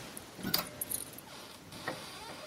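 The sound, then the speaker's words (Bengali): A bunch of keys jangles as a Godrej wardrobe is unlocked and opened: a few faint, light metallic clinks cluster in the first second, then one more brief jingle follows, all low against a quiet background hiss. “নিশীথবাবু খাটের উপর রাখা বালিশের তলা হাতড়িয়ে একটা চাবির গোছা বার করে ডেস্কের ঠিক পাশের আলমারিটা খুললেন।”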